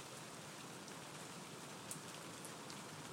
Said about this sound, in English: I'm sitting here by the back door with the door open, waiting for her to come back. So you probably get to hear the rain, I'm not sure.